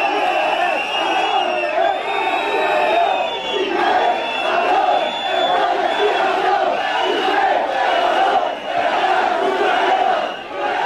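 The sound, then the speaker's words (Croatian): Football fans whistle and shout insults at Piqué as he walks onto the pitch at a Spain national team training camp, a loud, continuous crowd roar with shrill whistles running through it. “U trenutku kada je Piqué izlazio na teren trening kampom, čuli su se glasni zvižduci i uvredljivi povici koji su mu upućeni.”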